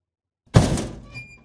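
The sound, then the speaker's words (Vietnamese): A door bangs open at a small house in a poor settlement under a bridge: a single heavy, low thud that rattles briefly and then fades out. “Cánh cửa mở rầm một cái”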